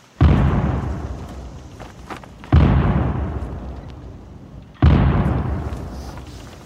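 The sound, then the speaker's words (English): Three gun blasts ring out as a salute for Captain Quaker. The booms are loud and evenly spaced, and each one rolls off in a long, decaying tail before the next. “There shall be 3 guns salute for Captain Quaker, followed by 4 second silence.”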